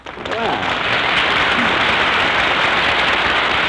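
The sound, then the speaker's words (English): An audience in San Francisco applauding a woman: a dense, hissing burst of clapping swells up within the first half-second and then rolls on loudly and evenly to the end. “Hey, you hear that? Hey, that's a nice hand you got there, Mary. They kind of like you in this town, huh?”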